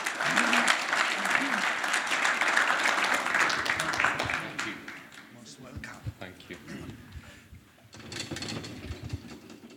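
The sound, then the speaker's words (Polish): An audience applauds to welcome a guest speaker and his translator at a gathering. The clapping is sustained and loud for the first few seconds, thins and quiets in the middle, then swells again near the end. “Proszę o klaski.”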